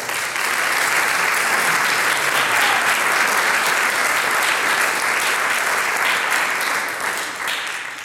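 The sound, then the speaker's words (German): Dense, steady applause for folk-music performers, a broad wash of many hands clapping that holds for about eight seconds and eases off slightly at the end. “Ich glaube, da gibt es einmal einen Szenenapplaus.”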